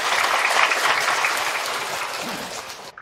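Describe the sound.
An audience of several hundred students claps in a dense, steady wash of applause, loudest at first, easing slightly, then breaking off abruptly near the end.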